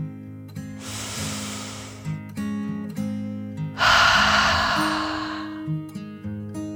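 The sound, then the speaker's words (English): One deep breath is drawn in and then let out, two long airy rushes separated by a short pause, heard over soft, steady low musical tones. “Together, the two friends took a deep dragon breath, in and out.”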